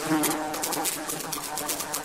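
Insects buzz in a steady, continuous drone, with a dense, rough texture and slight flutters in loudness throughout, and no voices are heard.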